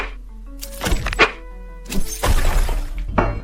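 Heavy enemy attacks land in video game combat as a few loud, crunching thuds and shattering hits, with sustained tonal sounds between the blows.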